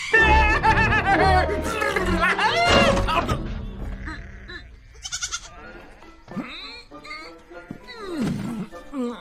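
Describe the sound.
Sheep bleat in wavering, quavering cries, several of them scattered across the stretch, mixed with voices and laugh-like sounds.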